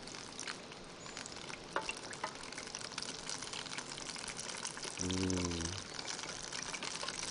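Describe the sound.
Sizzling of bite-sized morsels frying in a pan as they are flipped over: a steady, loud crackle that runs without a break through the whole stretch.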